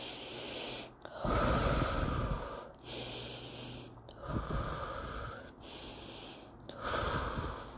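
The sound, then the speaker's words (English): Three slow, deep breaths taken together in a guided breathing exercise. Each is a long, airy, fairly loud inhale and exhale with short pauses between them, and there is no talk. “we're going to take our three deep breaths. Ready?”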